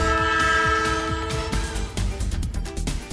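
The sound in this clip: A train horn jingle: sustained, multi-tone horn chords held over a rhythmic, chugging low beat, steady and fairly loud throughout with no voices.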